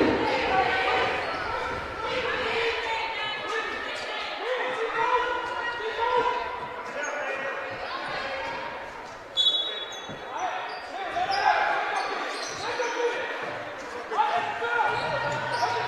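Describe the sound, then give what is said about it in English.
A basketball is dribbled on a court during a women's basketball game, its repeated thumping bounces set against steady crowd noise, with voices talking over the action throughout. “They do get it inbounded this time, but they dribble between two players.”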